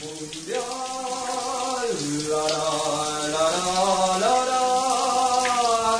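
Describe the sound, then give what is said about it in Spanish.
Hot water runs in a large bathroom as a steady, full rushing hiss. Through it runs a tonal whine that shifts up and down in pitch several times. “Ay, qué lindo el agua caliente.”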